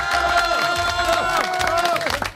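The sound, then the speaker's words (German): Crowd applause and cheering at a live radio event, a dense, loud roar of clapping and shouting that holds steady for the whole clip and thins out only at the very end. “Und jetzt brauchen wir natürlich einen riesengroßen Applaus. 3, 2, 1, Karl!”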